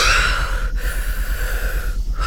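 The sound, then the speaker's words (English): A deep breath comes through as soft, airy breathing with a nasal edge over a steady low hum. “Take a deep breath.”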